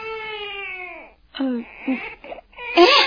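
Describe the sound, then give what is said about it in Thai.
A baby cries loudly: first a long, drawn-out wail that sags in pitch, then a few shorter, broken sobs and a final strained, rising cry. “ลูกของเราร้องเสียงดังเกินไป”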